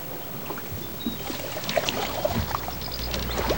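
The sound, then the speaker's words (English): Paddling a canoe on a river: quiet gurgling water with a few soft splashes and drips from paddle strokes, faint and without voices. “Fish jump in the water all around the canoe. When I'm paddling my canoe, I'm just wondering what's happening beneath me.”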